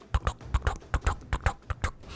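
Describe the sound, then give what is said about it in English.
Hooves of a horse carrying a rider as it exits a tunnel, a steady, rhythmic clip-clop of many sharp, evenly paced hoofbeats, clear and alone. “as a horse and rider exit from the dark mouth of this tunnel”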